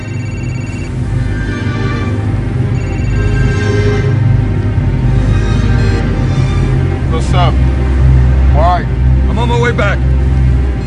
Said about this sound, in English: Now wind whips through Sonny's hair as his racing boat speeds over the water.